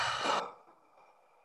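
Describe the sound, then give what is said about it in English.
A single deep breath is let out in a loud, airy rush during a guided breathing exercise, then trails off into a faint hiss. “Another deep inhale. And let it go.”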